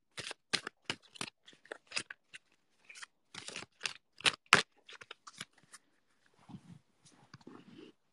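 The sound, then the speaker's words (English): Tarot cards and a Work Your Light oracle deck being pulled and handled, giving many crisp, sharp snaps and papery flicks in an irregular rhythm with brief pauses, fairly loud and without talk. “So I'm going to pull two different types of cards. I'm going to do my standard ones, my tarot and the Work Your Light deck from the Oracle cards, and see what comes up.”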